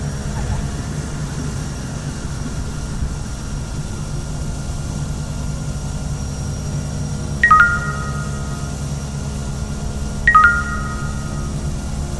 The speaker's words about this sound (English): Brakes and reverse thrust, sir.